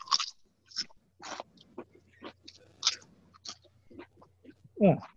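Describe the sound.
Salty crisps being chewed, several at once, in a person's mouth: irregular crunchy bursts and crackles with soft wet chewing between them, fairly quiet overall, ending on a louder mouth sound.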